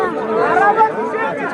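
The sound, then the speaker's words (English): An agitated crowd of migrants at the Serbia–Hungary border: many overlapping voices form a dense, continuous murmur of chatter, with a few voices briefly rising above the rest. “A policeman tries to explain to an agitated crowd that if they come to Hungary, they have to be registered.”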